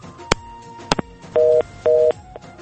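A caller's phone line cuts off. A few sharp clicks are followed by two short, even bursts of busy tone at a steady two-note pitch, separated by a brief gap.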